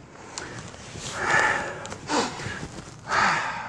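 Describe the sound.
A speaker pauses mid-talk to catch their breath, with a few loud, airy, sniff-like intakes in an uneven rhythm and no speech over them.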